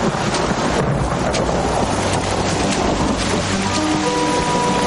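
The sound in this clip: A storm with wind and rain sweeps outside a jail in an Old West setting. Gusting wind and hissing rainfall form a dense, loud, unbroken roar from start to finish.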